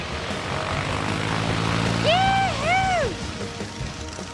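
A small airplane takes off with a steady, droning propeller engine hum under broad rushing noise. A brief wavering tonal sound rises and falls near the middle.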